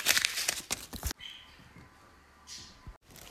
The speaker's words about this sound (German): als nächstes haben wir irgend so Folie sowas.